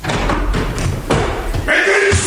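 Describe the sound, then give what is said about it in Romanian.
A door bursting open suddenly into a room, heard as a few heavy slams and thuds over a broad, noisy commotion. “În aceeași clipă ușa se deschide brusc”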